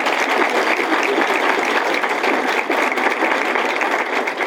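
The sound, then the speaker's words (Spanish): An audience at a speaking event gives a loud burst of applause. Many hands clap in a dense, steady roar that holds an even level throughout. “con estos aplausos ya no nos dejaron ninguno, no nos dejó ni uno para los demás”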